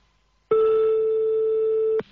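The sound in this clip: A mobile phone's ring tone sounds as the phone is called again: a single steady mid-pitched electronic tone lasting about one and a half seconds, starting and stopping abruptly.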